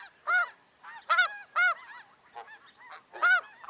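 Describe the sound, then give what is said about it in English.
A mixed flock of petite Ross's geese and heftier snow geese honks in repeated nasal, high yelps. The calls come in an irregular run, some loud and others fainter, with slight overlaps. “this flock is a mix of both the petite Ross's goose and the heftier snow goose.”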